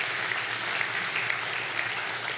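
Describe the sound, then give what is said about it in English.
An audience applauds with steady, even clapping that holds at a constant moderate level throughout, with only a few brief sharper claps standing out and no voices over it. “I think that's an applause that the Lord needs to deserve, man.”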